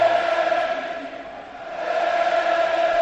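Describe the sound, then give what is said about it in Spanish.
Stadium crowd at the Benito Villamarín as the Real Betis anthem plays before a football match against Real Madrid on 8 March 2020: a loud, dense wash of crowd sound with a sustained melodic tone running steadily through it. “El Madrid a la derecha, el Betis a la izquierda, suena el himno del equipo verde y blanco.”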